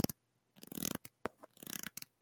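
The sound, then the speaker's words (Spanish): A deck of playing cards is handled as an ASMR-style sound, giving short crisp fluttering and scratchy bursts separated by brief silent gaps, with no voices. “Eso es una baraja”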